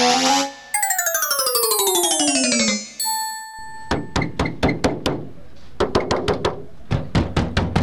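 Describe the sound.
Hard knocking of a stone against a door: many heavy, sharp blows in uneven bursts, preceded by a few descending chiming tones.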